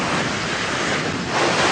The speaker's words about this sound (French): Vous entendez, c'est le bruit de la mer.